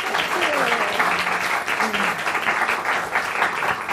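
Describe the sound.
A bookshop audience applauds a pair of guests arriving for a literary event. Clapping stays full and steady throughout, with faint voices mixed in beneath it.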